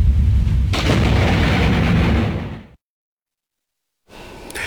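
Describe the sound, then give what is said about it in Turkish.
A lightning strike and thunder hit near a truck driving in rain on a road in Utah: a sudden loud crack swells into a sustained, roaring rumble, then cuts to silence before noise resumes. “Yağışlı havada seyreden bir kamyon yıldırımdan kıl payı kurtuldu.”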